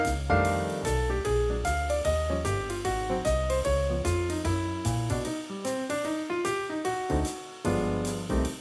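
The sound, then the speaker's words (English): A jazz piano solo playing over a rhythm section, the soloist's downbeats landing exactly together with the band; the piano spins busy, swinging melodic lines over steady bass and pulsing accompaniment throughout, with a brief thinner passage near the end. “In one version, for example, the piano soloist started at the exact same time as the rhythm section,”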